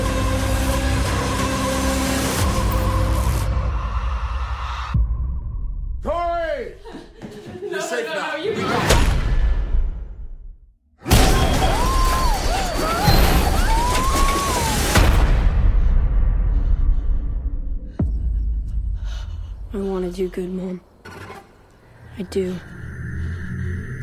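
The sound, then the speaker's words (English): Film trailer soundtrack of dramatic music, heavy booms, thuds and rumbling effects, with voices speaking throughout and abrupt cuts between loud passages and brief near-silent gaps. “That was the trailer for Brightburn. I hate that trailer.”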